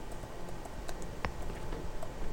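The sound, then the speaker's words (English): Keyboard typing as a comment is entered, heard as a few faint, scattered keystroke clicks over a low background hiss. “he's just going to type in a comment here”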